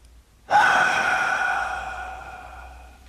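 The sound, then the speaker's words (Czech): A loud breath is forced out on command during a mock medical examination. It is one strong, breathy exhale that starts abruptly, holds for a couple of seconds and slowly fades, with no talk over it. “Hlasitě vydechněte.”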